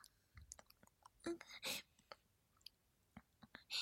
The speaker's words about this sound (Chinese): 挖干净一点，全部吃了。